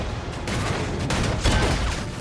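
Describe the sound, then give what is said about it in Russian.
A warship's guns fire rapidly at a surfaced submarine. Loud, overlapping blasts follow in quick succession over a dense, continuous roar, with no quiet gap between shots. “Орудия Грейхаунда лихорадочно обстреливает всплывшую подводную лодку.”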